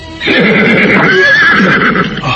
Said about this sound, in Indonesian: Tenang. Kuda ini tiba-tiba saja berhenti ketakutan